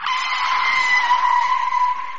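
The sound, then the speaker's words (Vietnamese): Tyres screeching as a car brakes suddenly and skids: a sustained, high, steady squeal that stays loud and unbroken for about two seconds, with no talk. “Còn chưa kịp phản ứng, thì xe đã phanh gấp.”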